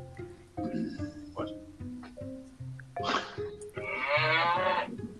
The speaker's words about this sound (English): That's what the cow had to say about that.